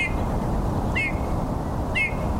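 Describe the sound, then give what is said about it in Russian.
Bullfinch creaking calls, three short, slightly falling notes spaced about a second apart, rising clearly above a steady low rumble of background noise. “снегирей чаще слышишь, чем видишь. То есть сначала услышал, потом стал искать, где они. И вот этот вот скрип,”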